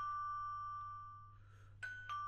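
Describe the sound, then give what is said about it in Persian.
A doorbell rings at the front door, heard as a faint, steady, high electronic tone with two short bright bursts near the end, alone with no talk. “مگم کر هستی صدای زنگ نمیشنوی؟”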